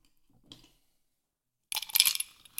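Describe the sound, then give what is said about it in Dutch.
Ice cubes drop into a glass for a drink topped with tonic: a faint tap first, then a short burst of bright clinking and rattling near the end. “Dus dan pak ik weer een beetje ijs”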